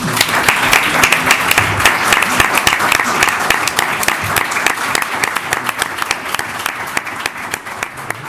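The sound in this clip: Audience applause after an extraordinary municipal council session held as a tribute: dense, steady clapping from many hands that fills the whole stretch without pause and eases off only slightly toward the end.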